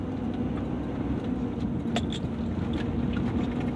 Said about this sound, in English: Y'all excuse all the background noise, I'm in actually driving, headed to work this morning